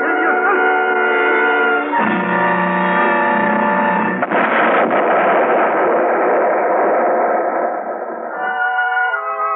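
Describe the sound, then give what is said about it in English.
A spaceship explosion sound effect from a radio drama: a loud, sustained synthetic roar layered with droning tones. It shifts abruptly a few times and thins slightly toward the end. “The ship is going to explode.”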